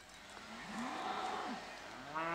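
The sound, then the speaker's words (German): Cattle moo in a pasture as a beef bull and the rest of the herd are called toward the farmyard for transport. A few drawn-out, low bellows overlap one another, with a louder moo rising at the end. “Eigentlich muss nur der Schlachtbulle auf den Hof. Doch der bleibt ruhiger, wenn die anderen Rinder dabei sind.”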